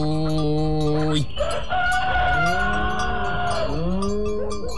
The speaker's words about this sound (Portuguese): Tá aí, coronel. Esse galo canta bem.